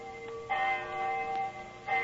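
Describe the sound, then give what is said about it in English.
A church bell strikes the hour in a city square at night, a few clear strokes each leaving a long, steady, humming ring that carries between strikes. “Our rendezvous took place right on the dot. I remember the hour was striking.”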